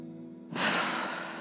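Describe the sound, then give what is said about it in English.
A deep breath is drawn in as a sudden, full rush of airy hiss that starts abruptly and holds evenly, after a brief faint steady tone, with no talking. “just take a deep breath with me for a minute”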